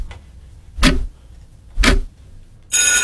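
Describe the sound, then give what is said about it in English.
A timer ending a 60-second radio bingo round: two sharp ticks about a second apart, then a loud, sustained, harmonic bell-like tone starts near the end. “there it is, the 60-second timer ending game number one.”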